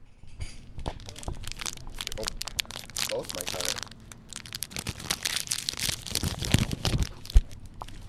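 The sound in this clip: A crinkly plastic snack wrapper is opened with many irregular crackles, crinkles and tearing rustles that come in uneven bursts throughout.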